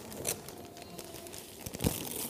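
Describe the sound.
Wrapping paper on a present being ripped open, a few soft crinkling tears followed by one sharper, louder rip near the end, faint and without talk.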